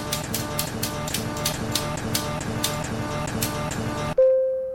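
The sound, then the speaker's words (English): A prize wheel spins on a decades game, giving off a long run of rapid, evenly spaced clicks that ends abruptly in a sustained, clear tone as it lands on the 70s. “Spin the wheel. Spin it.”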